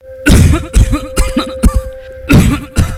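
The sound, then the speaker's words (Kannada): Repeated deep, chesty coughing from a man, a rapid run of harsh, loud bursts in close succession with barely a pause between them. “ಏನೇ ಆಳದ ಕೆಮ್ಮು ನಿಲ್ತಾನೆ ಇಲ್ವಲ್ಲಪ್ಪ? ಯಾಕೆ ಸಿದ್ದಣ್ಣ ಇಷ್ಟೊಂದು ಕೆಮ್ತಿದ್ದೀರಾ?”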